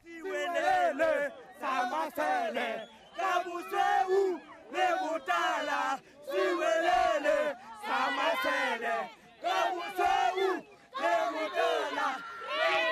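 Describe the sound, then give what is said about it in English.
Celtic football fans in a South African stadium sing loudly together in unison, a dense crowd chant with rhythmic phrases broken by brief pauses, sustained and noisy throughout. “here are Celtic fans who did get into the game singing one of those noisy songs.”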